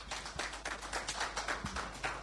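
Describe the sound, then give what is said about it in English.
Applause at an event introducing a bank's directors: a soft, thin patter of scattered hand claps, fairly faint and uneven, with no talk over it. “Please let's be kind to him with the applause.”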